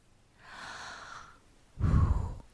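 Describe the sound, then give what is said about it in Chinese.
A deep exhale from a prince in a children's story as he calms his anger: a soft breath in, then a louder, gusty breath out, with no talking. “气鼓鼓王子深深的呼了口气”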